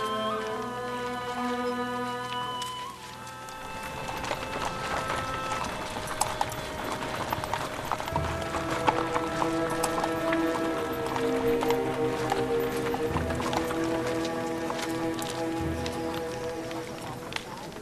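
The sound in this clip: Steady clip-clop of pack animals' hooves as they are led to the stable, an even trotting rhythm of hoof strikes playing under sustained music.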